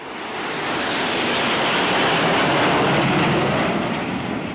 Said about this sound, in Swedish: Frankrikes nationaldag den 14 juli och stridsflygplan flyger lågt över Paris hustak.